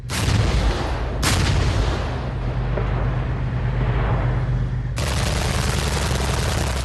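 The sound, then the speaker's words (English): Heavy military weapons fire in a large live-fire drill, pounding a mountainside near the border between South Korea and North Korea. Loud blasts break in sharply three times, each followed by a rolling, roaring rumble that carries on between them. “Peace through overwhelming strength. That's the message from South Korea's military as its weapons pound a mountainside not far from the border with North Korea.”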